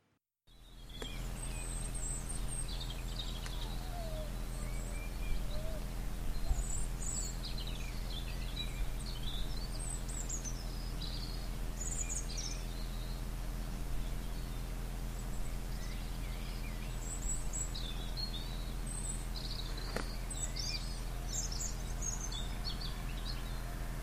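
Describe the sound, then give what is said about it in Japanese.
Morning birdsong at a friend's house in an old town near Cannes on a cold February day: scattered faint chirps and twitters over a steady low hum. “アドレエステレルという古い町があるんですけれども、そこの友人宅の朝の鳥の声もちょっと聞いてみてくれますか。”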